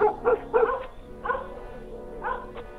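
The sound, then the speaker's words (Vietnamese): Dogs bark outside a house, several short, rough barks and yips in quick bursts with pauses between them, fairly loud and with no voices. “bỗng đâu chó lại sủa râm ran ở ngoài nhà”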